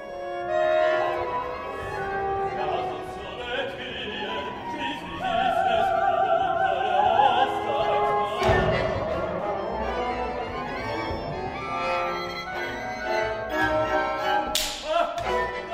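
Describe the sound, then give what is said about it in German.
Dissonant music from a chamber opera, Thérèse after Zola: sustained instrumental tones shift and swell, broken by a sharp whip-like crack midway and another percussive strike near the end. “Der junge deutsche Komponist Philipp Mainz, Jahrgang 1977 ist er, der hat eine Kammeroper komponiert nach Emile Zola, der Titel Thérèse, und wir hören mal ein paar Klänge daraus.”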